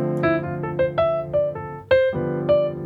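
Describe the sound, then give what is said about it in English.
Jazz piano playing a swing line with an added triplet, a string of single notes in bouncing rhythm, moderately loud and clear, with no voices. “So I like to add in a triplet, which will sound like this.”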